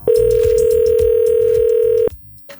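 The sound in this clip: A single steady telephone ringback tone lasting about two seconds, sounding loud and even on the line as a radio host calls a listener, then cutting off abruptly.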